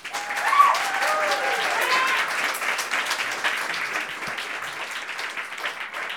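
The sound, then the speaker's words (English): Sustained audience applause greets a poet at a poetry reading event, a dense, even wash of clapping that holds steady for several seconds and eases off only slightly toward the end. “So please put your hands together and warmly welcome Eric Kennedy.”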